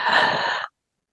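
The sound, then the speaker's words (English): A single deep breath drawn in during a guided breathing exercise, a steady, breathy rush of air that lasts under a second and then cuts off abruptly into silence. “So everybody, let's take a deep breath in.”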